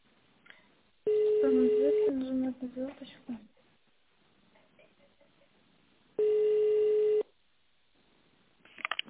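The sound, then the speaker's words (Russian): Touch-tone telephone keypad tones switching a phone line into tone mode: two steady electronic tones of about a second each, with a voice speaking briefly between them. “Пожалуйста, наберите номер вызываемого абонента по внутренней линии в тональном режиме. Для перехода в тональный режим нажмите звездочку.”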